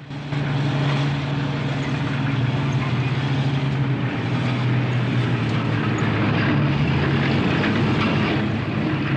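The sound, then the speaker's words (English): A small tracked, tank-like vehicle with wheels and guns climbs a steep sandy hill. Its engine and tracks give a continuous loud rumbling drone with a steady low hum from start to finish. “As the vehicle sets off up a steep sandy hill, he stands up, surveying the scene. Guns point to the right and to the left. The wheels and tracks leave deep furrows in the sand.”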